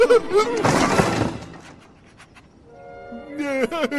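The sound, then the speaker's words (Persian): A door is forced open with a sudden, loud crashing burst. Voices talk before and after the noise. “میشه یکی بیاد این در رو باز کنه؟ باشه من میام، من میام.”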